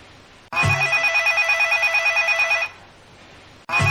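A telephone bell ringing: a loud, rapidly trilling ring lasting about two seconds, then a short pause before the next ring begins just at the end, with no voices.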